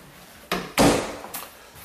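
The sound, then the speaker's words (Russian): A linen cupboard door in a house opens and shuts, giving a few sharp, loud wooden thuds and clicks with short pauses between them and no talking. “Окей, тут еще дверь. Много дверей. Это такой шкафчик для постельного белья.”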